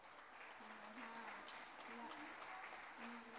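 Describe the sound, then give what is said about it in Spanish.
Audience applause at an intercultural gathering in Salta, given for a performer's family: a sustained, even bed of clapping with voices rising over it in places. “les pido un fuerte aplauso para su familia”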